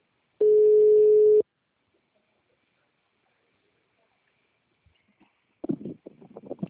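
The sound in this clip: A telephone tone sounds as a call is placed: one steady, pure beep lasting about a second. Near silence follows, then a voice begins speaking near the end.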